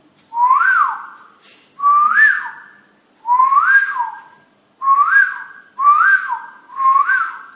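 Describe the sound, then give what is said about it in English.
A person whistles an imitation of a koel's call: six loud, evenly paced phrases, each a rising swoop that holds briefly, then drops away. “And what is the kokil? The bird that sounds something like this.”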